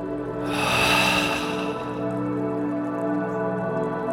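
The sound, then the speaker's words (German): A deep exhale through the mouth during a guided breathing exercise, a soft breathy rush lasting about a second and a half over a steady, low tonal background, then fading away. “Ein letztes Mal tief einatmen. Jetzt ein bisschen länger halten und durch den Mund ausatmen.”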